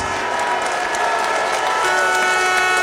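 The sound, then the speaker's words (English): Audience applause with some cheering as a football player is welcomed: a steady, dense wash of clapping that holds at a constant loud level throughout. “Please give a warm welcome to Connor Grant.”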